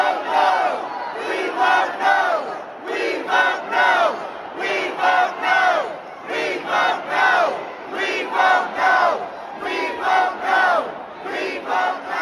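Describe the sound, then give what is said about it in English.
Hundreds of protesters chant inside the Ohio State Capitol, repeating a short vote-no slogan on Issue One. The crowd's voices rise and fall in steady rhythmic bursts, loud and continuous throughout. “that's the sound of hundreds of protesters who jammed inside of the Ohio State Capitol to let them know that they were going to vote no. They're chanting, "We vote no," on issue one”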